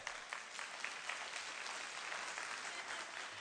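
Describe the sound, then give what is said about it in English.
Audience applause at Timberlake, a dense, even wash of many hands clapping that stays steady and fairly faint from start to finish without any pause. “I was didn't know if you'd clap or not.”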